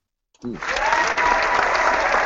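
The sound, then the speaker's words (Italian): Applause breaks out suddenly after a short pause, then continues as a dense, steady clapping wash that stays loud until the end. “Ah, un applauso, a me sembrava una macchina da cucire che tagliava qualcosa.”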